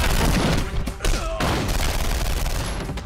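Gunfire from a Bollywood action film scene: dense, sustained volleys of shots that blur into a loud, continuous barrage for the whole stretch.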